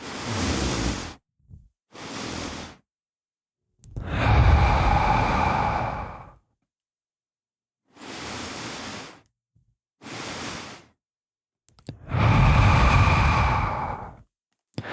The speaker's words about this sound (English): I'm going to do an inhale, followed by another inhale, followed by an exhale. I'll do a couple of reps of it.